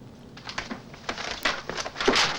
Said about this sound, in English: runs over to the pages of his symphony and begins to tear them up, one by one.